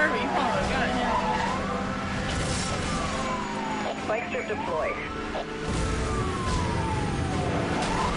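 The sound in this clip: Police sirens wail with rising and falling tones in a police-chase racing video game, over dense engine and game noise while people talk throughout.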